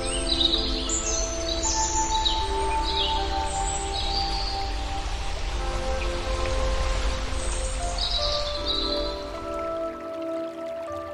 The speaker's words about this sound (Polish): Wokół słychać śpiew ptaków i szum wiatru.